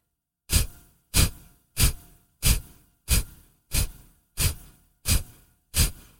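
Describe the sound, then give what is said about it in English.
Nine quick, loud, forceful breaths from a pranayama breathing exercise. Each sharp, rushing burst fades quickly, and they follow one another at an even, brisk rhythm, with silence between them and no speech. “The breath should be quick and loud, but find your pace. We'll do this for 10 more breaths.”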